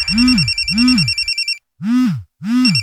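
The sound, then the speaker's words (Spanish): A telephone ringing in four repeated warbling bursts, the first two joined by a steady high buzzing tone, then a short silence before the last two rings. “¿por qué no contestan? ¿Qué no ves que Melimar te está llamando?”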